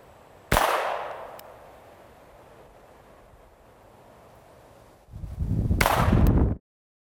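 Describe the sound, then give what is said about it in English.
A magazine-fed gun fires a single sharp crack that tails off gradually. Several seconds later comes a louder burst of rough noise. “So now I'm going to go ahead and load it. Cock it. And now I'm ready to shoot.”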